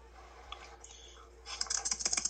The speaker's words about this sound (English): Hold up, let me write that. Well, type that down.